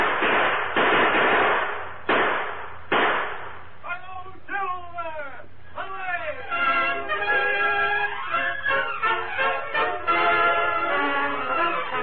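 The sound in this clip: Gunfire in a Western radio drama: a few sharp, loud bursts in quick succession, followed by men talking and shouting.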